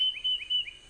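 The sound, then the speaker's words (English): A tufted titmouse sings three short, clear, high whistled notes in an even repeated rhythm, faint and alone. “That's the song of the tufted titmouse.”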